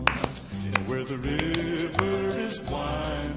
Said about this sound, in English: Yeah, little that. Yeah, the horse clap.